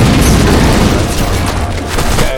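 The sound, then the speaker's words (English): A big explosion in a video game shooter fills the whole clip as a loud, dense, rumbling boom with heavy low end and crackling noise that stays strong throughout. “Wow. Did you survive that explosion? Nope. Yeah, that was a big one.”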